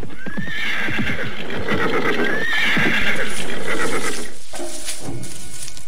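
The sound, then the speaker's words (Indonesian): A tired, staggering horse neighs in a loud, wavering whinny while its hooves clip-clop in quick, hollow knocks as it slows to a stop. “Tapi lihatlah kuda kita, sudah menjadi semakin limbung. Baiklah, kita berhenti saja sebentar.”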